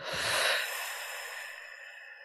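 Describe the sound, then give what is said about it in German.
Slow breathing during a guided counting exercise: one long, soft, breathy exhalation that fades gradually, with faint steady tones underneath. “Nochmal einatmen und aus.”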